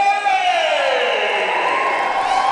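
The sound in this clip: A crowd cheers and whoops as roller derby skaters take the track. One loud, held shout slides steadily down in pitch over dense crowd noise for about two and a half seconds.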